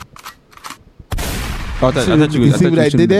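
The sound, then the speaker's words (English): Gunshot sound effect bursts in suddenly as a loud, harsh blast that rings on without stopping, with tonal, voice-like sounds layered over its tail and faint talk just before it. “Why do we keep shooting?”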